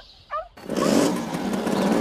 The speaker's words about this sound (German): Er auf seinen Mofa und ich hinterher.